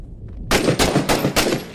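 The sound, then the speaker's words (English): Gunfire in the video game Six Days in Fallujah: after a brief quiet moment, four sharp, loud bursts crack out in quick succession with no talking. “Don't do that. Because he's shooting already.”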